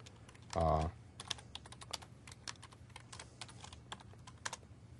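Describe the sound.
Someone types code on a computer keyboard, producing many quick, faint clicks in an irregular rhythm with short pauses between bursts of keystrokes.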